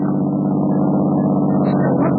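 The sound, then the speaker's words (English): A car driving past gives a steady, muffled engine hum. The low rumble stays continuous and even throughout. “What's that? That car going by.”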